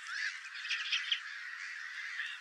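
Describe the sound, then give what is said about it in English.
Geese honking in a park: a thin, continuous flurry of overlapping squawky calls, fairly faint, with no voices. “Enormous numbers of geese and swans.”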